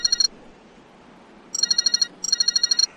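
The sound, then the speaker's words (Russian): A mobile phone rings inside the pocket of a jacket just taken from a car boot: three loud bursts of rapid, rattling electronic trills, the first cut short, with faint hiss between and no voices. “В кармане у него задребезжал телефон.”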